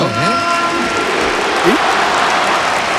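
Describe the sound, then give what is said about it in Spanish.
Stadium ovation for Antoine Griezmann at a football match, a dense, steady roar of clapping from the crowd that stays loud throughout, with a brief voice near the start. “Aplauso del estadio para Antoine. Ovación.”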